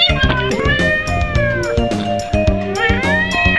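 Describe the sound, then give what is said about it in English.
A cat meows repeatedly in a quick series of loud, rising and falling cries, some drawn out and others short, with no pause of any length between them. “You cute kitty. You kitty. Kitty.”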